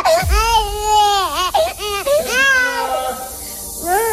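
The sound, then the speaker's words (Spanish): A baby in a tantrum cries in a few loud, high wailing bursts separated by brief gasping pauses, the pitch of each wail bending up and down. “si tienes un bebé en fase de rabietas, ojo con este truco que se ha hecho viral para que el bebé deje inmediatamente de berrear.”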